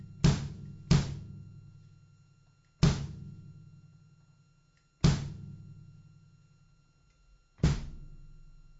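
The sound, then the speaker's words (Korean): Five booming strikes on the bass drum of a drum kit, each a deep thud followed by a long ringing decay, spaced unevenly with the first two close together and the rest further apart. “그래서 여러분께서 지금 들으신 소리가 큰 북입니다.”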